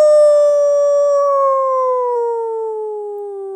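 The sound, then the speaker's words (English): A person imitates a wolf howl: a single long, loud vocal note rich in harmonics that slides slowly and steadily downward in pitch for over three seconds, heard alone. “Let's hear a wolf call. So, okay, let me preface this by just saying that anyone can do this, and it does work in places with wolves.”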